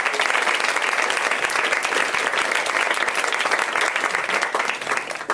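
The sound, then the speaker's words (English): Audience applause for comedians at a comedy show: dense, steady clapping holds at a loud level for about five seconds and tapers slightly at the end. “Let's hear it for these gals. They're great.”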